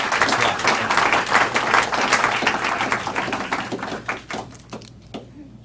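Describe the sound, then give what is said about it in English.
Audience applause at a New America Foundation event welcoming Senator Russ Feingold: brisk, dense clapping that stays strong for several seconds, then thins out and fades away near the end. “please give a hand of welcome to Senator Russ Feingold, who's going to share some views with us”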